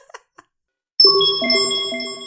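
Time machine sound effect switching on and warming up: a few small clicks, then a bright, sustained synthetic tone with layered notes stepping in one after another and slowly fading.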